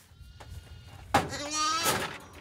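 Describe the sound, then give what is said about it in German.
A newborn lamb and its ewe bleat: after a brief knock, one wavering, moderately loud bleat rises above faint low background noise. “Hier haben wir ein frisch geborenes Lamm da vorne, das ist aber, dem geht's gut, es hat schon getrunken. Die Mutter hat ein volles Euter”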